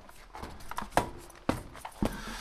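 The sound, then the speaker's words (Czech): Footsteps climbing a ladder backstage above the stage of a puppet theatre: a few firm, evenly spaced thumps about half a second apart, with lighter knocks and faint shuffling between them. “My tady teď stoupáme po žebříku. Dostali jsme se nad jeviště.”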